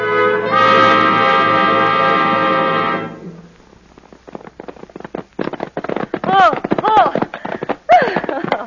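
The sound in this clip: Horses gallop in a race between two riders, their rapid clattering hoofbeats coming after a loud sustained tonal chord that fades out after about three seconds; voice-like cries rise over the pounding hooves near the end.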